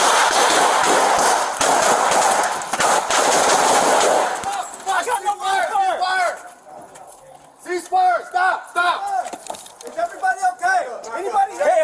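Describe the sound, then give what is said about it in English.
Rapid gunfire during a police emergency entry, with a pistol fired until empty: many loud, dense shots crowd together for several seconds, then stop as people talk over a quieter background. “Shots fired.”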